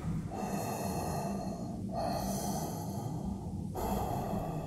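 Breathing through a just-connected oxygen supply, a steady, fairly quiet breathy hiss interrupted by a couple of short pauses between breaths.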